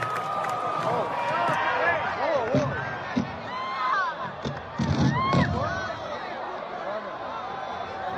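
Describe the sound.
A crowd cheers and shouts at a comedy show in Los Angeles: a dense, steady roar of many voices, with scattered whoops and a few louder bursts of applause-like noise.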